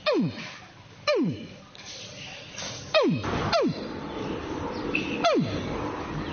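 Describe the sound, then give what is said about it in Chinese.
A man imitates a baby crocodile calling for its mother. Several separate, sharp chirps each sweep steeply downward in pitch, spaced irregularly over a few seconds with soft background noise between them. “鳄鱼小鳄鱼的时候是这样叫的。 鳄鱼找妈妈的声音。”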